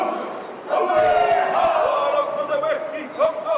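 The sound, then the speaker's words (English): Indigenous Maori performers chant and shout in a welcoming ceremony as the Carnival Australia Pacific Explorer cruise ship docks in Auckland; a loud group chant with sharp cries rings out after a short quieter lead-in. “Indigenous Maori perform a welcoming ceremony as the Carnival Australia's Pacific Explorer cruise ship docks in Auckland with around 2,000 passengers and crew.”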